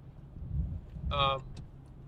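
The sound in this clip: Steady low road rumble from inside a moving car, with a brief higher tonal squeal in the middle of the stretch.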